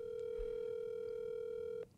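A telephone dial tone hums at one steady pitch for nearly two seconds while a call is being placed, then cuts off abruptly.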